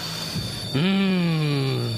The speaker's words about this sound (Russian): Маэстро, переместите нас в лондонское метро, пожалуйста.